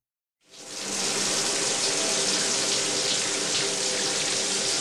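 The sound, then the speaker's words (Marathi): Water running from an overflowing tank, a loud steady rushing hiss that starts abruptly and pours on unbroken, with no voices. “अरे अर्धा तास झाला पाणी वाहत आहे, टाकी बंद कर.”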